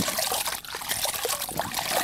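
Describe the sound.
Water splashes and trickles as someone washes their face, a continuous wet patter with small splashes throughout and no talking.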